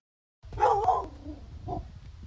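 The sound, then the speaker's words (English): Barking from a black lab pit bull mix dog at the door of a home: short, sharp barks follow a moment of silence, with a longer burst first and a second, softer bark after a pause. “A black lab pit bull mix named Animoosh barks at the door of Sandy Derrigan's home.”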